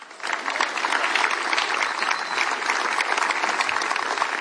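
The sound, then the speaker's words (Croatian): Warm audience applause at a chanson festival evening as a singer is welcomed to close the show. Thick, continuous clapping starts abruptly and carries on evenly throughout. “a zato ćete i vi nagraditi velim pljeskun”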